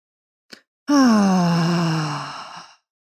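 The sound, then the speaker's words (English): Loud groaning exhale in a breathing exercise: a quick short intake, then a long voiced sigh-groan that slides gradually lower in pitch and fades out, with no words spoken. “exhale, inhale, exhale, and last one, and exhale with a noise.”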